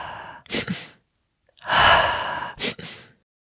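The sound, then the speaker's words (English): Breathing exercise of two quick inhales and one long exhale: two short sharp breaths, a pause, then a long airy exhale, followed by two more quick inhales as the cycle restarts. The breaths are fairly soft and heard alone. “That quick little inhale, long exhale. It's a really great brain reset.”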